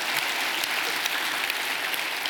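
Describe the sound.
An audience applauds with dense, steady clapping that holds at an even level throughout.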